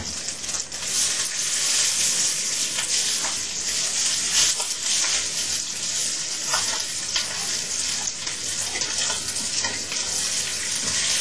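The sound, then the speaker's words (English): Leftover day-old rice sizzles as it fries in a pan with oil, a dense, steady crackle that stays loud and even throughout with no talking. “Okay, now you put the leftover rice in there. The rice that from yesterday. Yeah, yes. Whole rice. Put in there and then fry it.”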